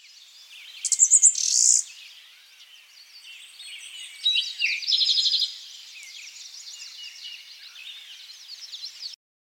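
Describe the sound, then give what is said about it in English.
Eastern bluebird song: soft, high warbled phrases arriving in a few brighter bursts with quieter chirping between them, heard alone without voices. “Eastern bluebird.”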